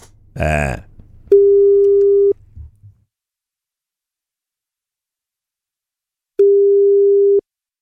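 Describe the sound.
Telephone ringback tone on an outgoing call: two steady mid-pitched tones, each about a second long, separated by a long silence, with a short burst of talk at the start.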